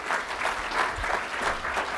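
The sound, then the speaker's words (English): Audience applause: a dense, even patter of clapping that keeps going at steady strength throughout. “Oh, come on, crank it up. A little more, go for it. You realize you release endorphins. When you applaud, you release endorphins.”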